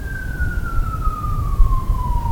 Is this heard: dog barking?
no